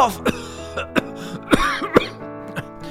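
Coughing and throat clearing from a single person: about six short, rough bursts in an uneven rhythm, with faint breathy gaps between them.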